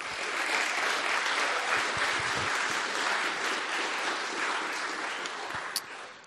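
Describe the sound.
Warm audience applause welcoming a speaker and his wife to the stage at a Christian gathering in northern England, a dense, loud, unbroken wash of clapping that holds steady throughout and eases slightly at the very end.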